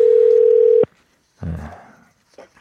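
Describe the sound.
A steady telephone dial tone sounds alone while a call is placed, one continuous level tone that cuts off abruptly after under a second, followed by silence and a short noisy burst.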